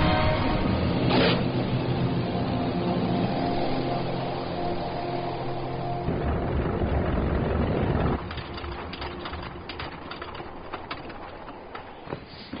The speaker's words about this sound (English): This time, both sides of the landing gear come down. Without a second to spare.